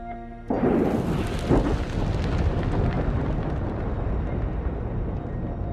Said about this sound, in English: Flames erupt from a metal drum outside the cottage.